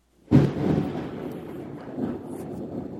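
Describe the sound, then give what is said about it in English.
Thunder follows a lightning bolt: a sudden low crack gives way to a rolling rumble that swells again briefly before trailing off, fairly faint. “there literally was a bolt of lightning and oh, shit. Thunder. Is that right what that was? That's what it was.”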